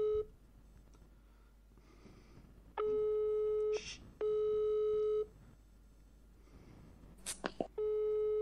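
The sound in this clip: Telephone ringback tone as an outgoing call is placed, heard as long, steady, even-pitched beeps separated by pauses, with the last tone cut off. A faint background hiss and a brief breathy noise sit between the tones.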